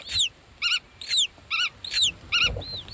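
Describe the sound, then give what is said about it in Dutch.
Black-tailed godwit parents calling while flying over a field in Friesland, communicating with chicks still in the egg. About seven high, clear calls alternate between slurred arching whistles and quick stuttered note clusters, fairly faint, with no talk. “En wat je hier hoort zijn grutto-ouders die rondvliegen boven het veld en communiceren met hun jongen in het ei.”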